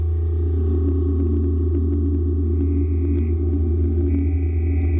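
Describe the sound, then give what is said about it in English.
Synthesizer oscillators faded in on a mixing desk: sustained, steady electronic tones hum as low drones, with higher pure tones entering partway through and holding alongside them. “And these different sounds coming in, are these different oscillators? Different oscillators, and I have a mixing desk on the bottom so I can fade in the different sounds.”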